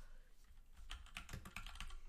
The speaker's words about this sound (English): I type in UT football into Google.